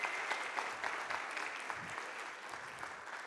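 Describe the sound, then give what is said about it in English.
Congregation applause at a Sunday service at Embrace Church in Lexington, Kentucky: soft, steady clapping from many hands that continues evenly throughout. “Let's give her another hand and welcome her into our church.”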